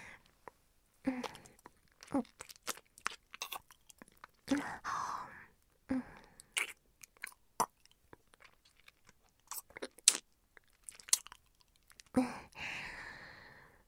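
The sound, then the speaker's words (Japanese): Many quiet, short, wet kissing smacks come in an uneven rhythm, close and intimate, with small clicks and pauses between them. “じゃあキスしちゃうね”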